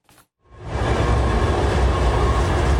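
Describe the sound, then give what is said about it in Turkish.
A historic Orient Express passenger train rolling on rails at a station in Turkey: a brief faint noise, then a loud, steady rumble of wheels and carriages from about half a second on, with no speech. “Tarihi Venice-Saint-Plon Orient Express treni yılın ikinci seferi kapsamında Türkiye'ye geldi.”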